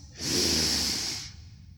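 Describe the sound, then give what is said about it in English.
A single slow, deep inhale of breath during a paced breathing exercise: one long, steady airy draw that lasts about a second and then stops, followed by near quiet. “Breathe in for 7 seconds.”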